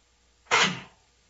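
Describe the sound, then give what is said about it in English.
A single sneeze: one sharp, breathy burst that cuts in suddenly and fades within half a second, alone against near silence. “Had a sneeze there.”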